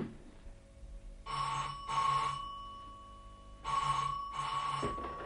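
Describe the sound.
A telephone rings in a home with two bright double rings of a trilling bell, each pair of short bursts separated by a pause of quiet.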